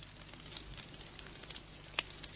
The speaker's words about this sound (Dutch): Dan is er wat geknetter. En opeens vliegt er een kronkelende witte vlam langs de groene naalden omhoog.